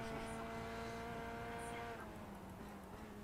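A BMW car's engine in a racing video game, a steady droning motor tone with strong harmonic hum that holds at a fairly even level for the whole stretch.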